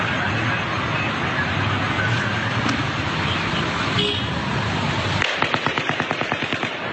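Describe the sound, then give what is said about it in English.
Rapid gunfire heard from a distance, fired from a high window while a car drives nearby. Steady road and engine noise comes first, then a fast, evenly spaced burst of many sharp shots that gradually fades. “Now this shot sounds like it came from where the first shots came from. Sounds closer than a 32nd floor window.”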